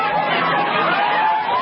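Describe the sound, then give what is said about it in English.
Crowd of more than 100 demonstrators outside the Orange County Jail in Orlando, Florida, a continuous murmur of many overlapping voices at an even level, with no single voice standing out. “That's the sound of the crowd.”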